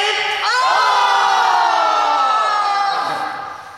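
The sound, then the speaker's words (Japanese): Elementary school children shout an energetic group chant together: one loud, sustained, high call of many young voices that jumps up in pitch early on, holds for about three seconds, then fades away. “えー、元気な掛け声からスタートしました。”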